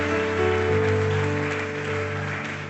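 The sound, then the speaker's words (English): Audience applause welcoming a guest speaker at a church service, a steady wash of clapping layered over sustained keyboard chords. “Would you give him a hand and a big Zanesville welcome?”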